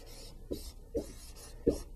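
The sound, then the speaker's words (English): Faint writing strokes on a board during a math lesson: three short, scratchy rubs spaced apart, the last one slightly stronger, with no talk over them. “And I'm going to write that”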